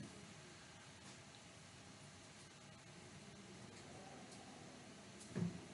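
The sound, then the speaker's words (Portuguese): A faint, airy hiss comes from a window left slightly open, an even, continuous noise that holds steady with a brief low bump near the end. “É que eu deixei a frestinha da janela aberta também, eu não cuidei direito, não vou sair agora para fechar. Então vai fazer esse barulhinho aí.”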